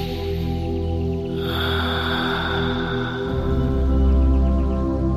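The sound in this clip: A deep breath is drawn during a calming exercise, a long, airy inhale of a couple of seconds over steady, soft droning background music.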